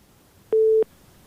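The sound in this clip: A telephone busy signal from a call that failed to connect: a single steady, mid-pitched electronic beep, clean and alone against near silence.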